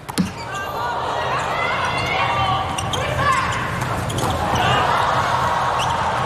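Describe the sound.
A volleyball bounces on the court as a player readies a serve during a volleyball match. A brief sharp thud comes at the very start, then a steady crowd murmur fills the rest.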